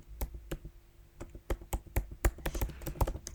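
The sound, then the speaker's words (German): Typing on a MacBook keyboard: many quick, irregular key clicks and taps in uneven bursts, with sharper strokes now and then, sounding alone without talk. “Ich gehe jetzt mal so über die Oberfläche vom MacBook. Und jetzt tippe ich mal ein bisschen.”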